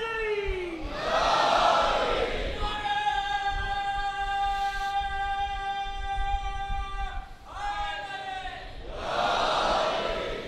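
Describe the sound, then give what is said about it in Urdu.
A crowd at a religious gathering loudly chants salawat, with a roaring burst of many voices opening into a long, sustained unison chant, followed by another loud crowd swell. “نہیں یہ نعرہ کمزور ہو گیا کچھ, ایک صلوات بھرپور میں.”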